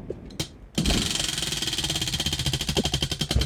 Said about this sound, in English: We're gonna spin this wheel here.